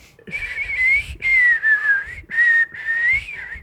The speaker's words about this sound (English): That is my worst talent, is whistling. Really. Like, I cannot.